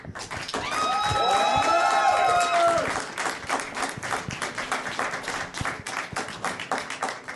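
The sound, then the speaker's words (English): An audience applauds at a live event, a steady patter of many hands clapping at moderate loudness that carries on throughout, with a cheering voice rising over the clapping early on and fading after a couple of seconds. “So by round of applause, the Ray Kylo scene.”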